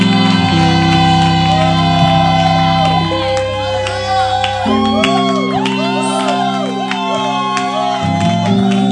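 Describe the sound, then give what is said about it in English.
Loud shouting and cheering from a church audience praising on Resurrection Sunday as a bishop is welcomed to the stage, with voices rising and falling over steady sustained instrumental chords. “Now give the Lord a shout of victory and praise as we welcome to the stage our prophet, Bishop Doug Heward Mills.”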